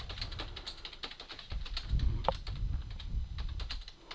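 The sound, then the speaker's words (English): Typing on a computer keyboard: many rapid, irregular key clicks at a fairly faint level over a low steady rumble, with no voices. “Guess that keyboard's working a little better, huh?”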